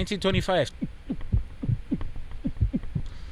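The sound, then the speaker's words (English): Heartbeat sound effect of steady, paired low thumps in a lub-dub rhythm repeating many times, with a brief tonal sound at the start before the beats begin. “I need to add a little a heartbeat.”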